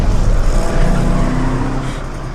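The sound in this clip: A car engine roars loudly as it revs and accelerates, a dense, gritty drone with a rough low rumble that eases slightly toward the end.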